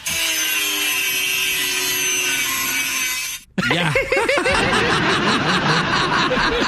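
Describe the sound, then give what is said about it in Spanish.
A tree is cut down with a handsaw. A continuous droning noise is followed, after a short gap, by loud, fast, rhythmic rasping saw strokes. “Sí, aquí tenemos el audio de Shakira cortando el árbol.”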